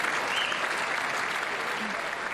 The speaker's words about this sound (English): lots of applause, vocal support from Republicans in that audio